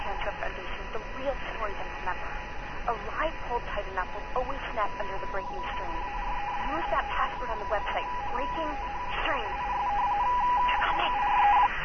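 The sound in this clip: Keypad tones come from pressing buttons on a phone's interactive voicemail box system: many short, bright beeps in quick succession, mixed with a voice and a thin telephone-line sound that grows slightly louder toward the end.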